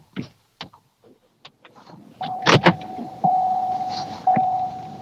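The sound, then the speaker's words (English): A car's electronic warning tone: a steady mid-pitched note that sounds after a few scattered clicks and knocks, grows louder in two steps and continues to the end. “Now you hear your car beeping.”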